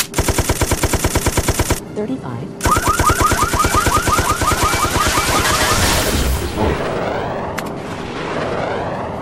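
Rapid machine gun fire in a video game, loud and steady, in one long burst and then a second longer burst after a short pause, ending in a noisy, rumbling wash.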